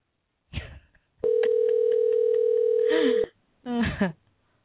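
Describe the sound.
Telephone tones sound while calling through to voicemail. A steady buzzing line tone holds for about two seconds, with a short noisy burst before it and a brief tonal sound after.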